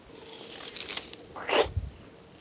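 A crisp crunch as someone bites into juicy, sweet-sour food, one sharp brittle burst standing out from faint background rustle, with no talking.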